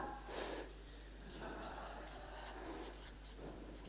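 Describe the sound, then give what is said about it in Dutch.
Writing on a board makes quiet, scratchy strokes in a series of short, faint movements. “En ik schrijf hier bara.”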